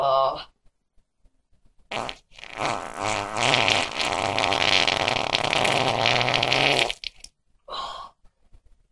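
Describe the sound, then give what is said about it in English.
A long, loud fart rumbles and sputters for several seconds without a break, with shorter bursts just before and after. “Oh, listen to that fart.”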